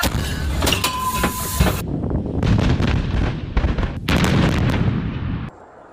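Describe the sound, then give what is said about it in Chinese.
Booming artillery salvo as a full company of howitzers fires together in the hot Gobi desert. Loud, overlapping blasts and heavy rumbling last for several seconds before cutting off abruptly. “全连一发齐射，放！”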